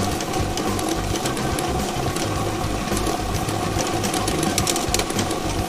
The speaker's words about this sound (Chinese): 摇奖机已经正式启动了